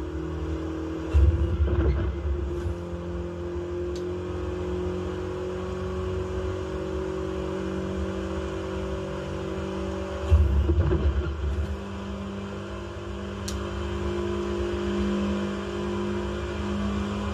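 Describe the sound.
A car drives through a barren wasteland in a video game, a steady, low engine drone with a constant hum and two brief louder bursts along the way, without voices.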